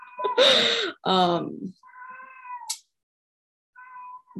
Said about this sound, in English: I have a screaming cat in my house.